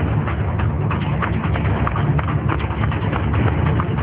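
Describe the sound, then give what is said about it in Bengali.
Running footsteps as a man flees along a street, a fast, steady patter of many dense, rough impacts at even volume, with no voices. “তারপর শোনা গেল রাস্তা দিয়ে তার ছুটে পালানোর পায়ের শব্দ।”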